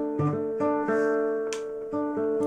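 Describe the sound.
Classical guitar plucking a simple bass accompaniment: several low notes in a steady, lilting rhythm, each ringing on, with no other instrument or voice.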